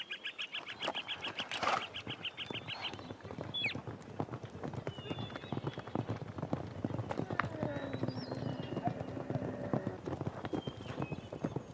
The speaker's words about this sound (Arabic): هذا حصان يقدر الفرسان، لقد صار لي.